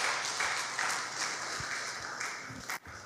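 A church audience applauds a member who won an election: a soft, even patter of many hands clapping that fades near the end.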